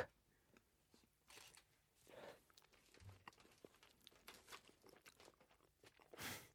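Quiet crunching and chewing of chocolate-coated shumai dumplings, with a few soft bites and a steady, moist mastication.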